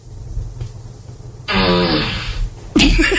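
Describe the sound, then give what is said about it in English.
A fart sound effect played by an Amazon Echo smart speaker: one loud, buzzy, rippling burst about a second long that starts abruptly after a quieter stretch. “Alexa, ask for a fart.”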